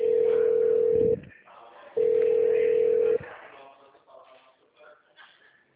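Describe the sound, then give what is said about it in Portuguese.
Telephone line tone while a call is transferred: two steady, mid-pitched beeps of about a second each, separated by a short gap, then quieter low-level noise. “Aguarde, estamos transferindo sua ligação.”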